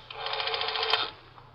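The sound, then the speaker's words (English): Rotary telephone dial turned by a thumb in an office, heard as a rapid, even run of soft clicks lasting about a second, fairly faint. “I slip into Mama Greenspan's office on the first floor and get my thumb in the dial.”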